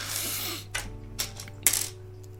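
Plastic Lego pieces from bag six click and clatter as they are fitted onto a Lego Batmobile build: a few sharp, bright snaps and rattles, spaced apart over a faint steady hum, with no talking.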